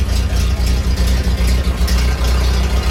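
An old Ford car, a garage find, runs its engine with a steady low rumble and a regular pulsing beat throughout.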